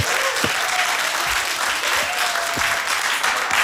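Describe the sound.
Audience applause in a radio studio, steady dense clapping sustained throughout with a few faint voices and whoops rising over it.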